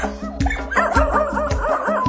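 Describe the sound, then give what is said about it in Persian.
Dogs barking in a rapid, continuous run of high yips and bow-wows, loud and steady from start to end with no talk. “نه تا هاپو اومدن واقو واقو واق میکنن.”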